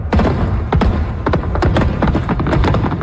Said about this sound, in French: Alors, feu d'artifice pendant 10 minutes. Grand déploiement, ma foi!